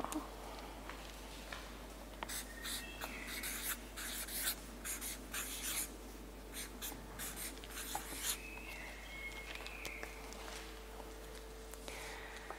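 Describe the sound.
Notes written by hand during a Bible study group: many quick, dry scratching pen strokes come in irregular bursts with short pauses between them, faint over a low, constant background hum, with no talk.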